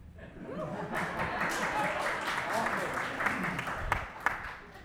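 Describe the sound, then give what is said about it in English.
A small audience at a live music show gives a light smattering of applause, scattered claps with a few chuckles and some soft talk beneath. “again, a mere smattering of applause when I mentioned the books.”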